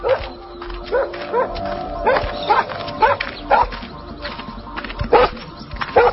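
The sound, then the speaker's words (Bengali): A pet dog that has turned aggressive barks repeatedly near a dog house, with sharp, loud barks in irregular bursts and faint whimpering tones between them. “ওই dog হাউসটা দিয়ে যাচ্ছি আমি, পোষা কুকুরটা violent হয়ে গেছে, ওকে tranquilliser দাও।”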